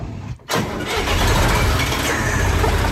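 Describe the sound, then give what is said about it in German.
A 1977 Fendt tool-carrier tractor with a front-mounted tipper starts up: a short cranking burst, then the engine catches into a loud, steady low-pitched idle rumble that carries to the end. “Ein Fendt-Gerätetraktor mit Kipper vorne dran aus dem Jahr 1977.”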